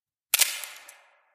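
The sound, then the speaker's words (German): A camera shutter release is pressed: two sharp clicks run almost together, then a bright, fading metallic tail dies out in under a second, alone in silence. “Nervös lag sein Finger auf dem Auslöser. Dann endlich drückte er ab.”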